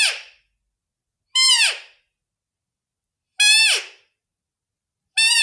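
A roe deer doe's call imitated on a worn Blatter deer call: four short, high, squeaky whistled calls, evenly spaced, each with a rich harmonic tone whose pitch drops at the end.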